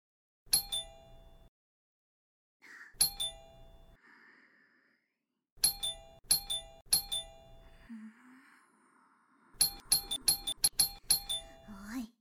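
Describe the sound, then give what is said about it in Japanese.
A doorbell or call-button chime pressed over and over, with separate ding-dong tones at first and then a rapid cluster of presses near the end. A voice speaks in the gaps between the rings. “なんじゃこのボタン。おー、音が鳴ったぞ。そうか、これで呼び出すのじゃな。なら、もっと押せばいいかの。”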